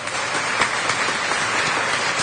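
Worshippers applaud during a church service, a steady patter of many hands clapping at an even level throughout.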